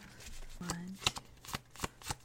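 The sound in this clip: Tarot cards are shuffled and drawn in a few sharp, snappy riffles and slaps at an uneven pace, with a brief voice near the start.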